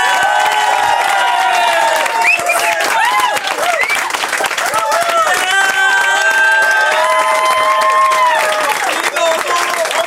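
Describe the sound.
Loud applause and cheering from a TV talk show studio audience, a dense wall of clapping with shouts and whoops rising over it throughout.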